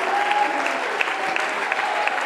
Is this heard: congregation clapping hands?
yes